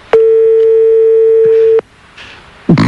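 A ringback tone sounds on an outgoing telephone call: one steady, loud, single-pitched tone lasting well over a second, then a quiet gap with faint noise and a short, louder burst at the very end.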